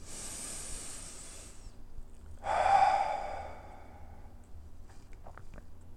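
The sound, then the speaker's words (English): Deep meditative breathing, in and out, during guided meditation: a long airy inhale lasting over a second, a pause, then a stronger, shorter exhale that rushes out and fades, with no talking. “So take a deep breath with me, will you?”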